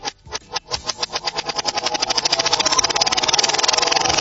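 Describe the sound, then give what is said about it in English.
A prize wheel is spun backwards, giving a run of loud clicks that start spaced apart and then quicken into a fast, steady ratchet. “I'm spinning it backwards, okay? I'm going to spin the wheel backwards.”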